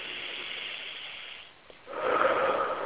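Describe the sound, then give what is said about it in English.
Deep breathing during a guided breathing exercise: one long, airy breath, a brief lull, then a louder, fuller breath that continues to the end. “So let's just breathe. We're going to breathe a little bit here.”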